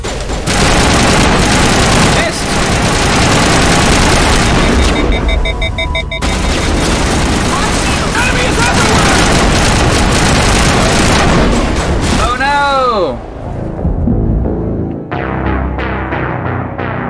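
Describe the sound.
Video game gunfire: loud, dense volleys of rapid shots and booms that run almost without pause, then thin out into a few scattered bursts near the end.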